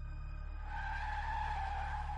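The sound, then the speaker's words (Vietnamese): A car brakes hard, its tyres screeching over a low engine rumble. The squeal begins after a short moment, then holds as a loud, steady, high-pitched scream until the end. “kèm theo tiếng phanh gấp cảm tưởng như cháy cả bánh xe”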